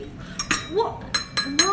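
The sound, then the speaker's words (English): A bone china cup clinks several times with sharp, high, ringing taps while people talk briefly in between. “That's the sound of a bone china cup.”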